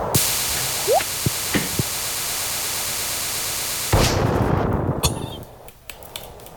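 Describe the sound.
A mega bomb explodes in the video game Stardew Valley, clearing weeds and trees on a farm: one broad burst partway through over steady static hiss, fading over about a second and a half, with a few short clicks before it.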